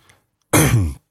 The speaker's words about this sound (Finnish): vähän tässä yskin, tai oikeastaan yskin kuivan kurkun takia.